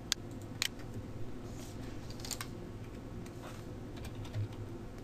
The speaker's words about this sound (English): When we type our subject in, we can hit the Go button here.